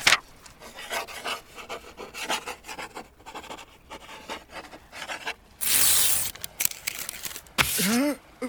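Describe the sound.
A pen scratches on paper as a note is written aboard a ship, with many short rasping strokes in an irregular rhythm, some louder bursts, and a brief voice near the end.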